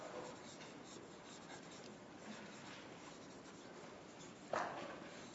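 Steady scratching of writing on a board runs throughout at a low, even level, with one sharper, louder stroke near the end.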